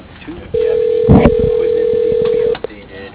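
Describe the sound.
A steady electronic tone plays on a company's telephone line while the caller is on hold for the next available associate. It is a single sustained mid-pitched note lasting about two seconds, with thin, narrow telephone-band quality.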